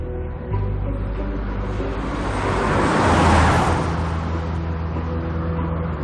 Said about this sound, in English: it doesn't really make sense until this other car passes